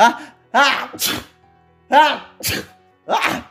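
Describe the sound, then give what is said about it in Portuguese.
A person's sneeze attempts: a few drawn-out voiced intakes, each followed by a sharp, breathy burst, repeated in quick succession. “eu vou espirrar”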